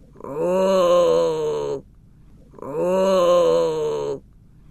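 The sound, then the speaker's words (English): Two long, deep moaning groans from a cave, each sustained for about a second and a half with a strong harmonic, voice-like tone, separated by a short pause and heard alone. “As Lila walked past a cave, she heard the sound of moaning and groaning. It got louder and louder.”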